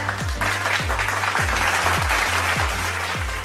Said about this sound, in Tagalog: Palakpakan ang inyong mga sarili.